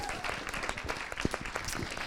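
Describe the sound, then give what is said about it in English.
An audience applauds to welcome a speaker, producing a soft, dense patter of many hands that continues throughout, with voices mixed in underneath. “Give them a nice round of applause as they come up.”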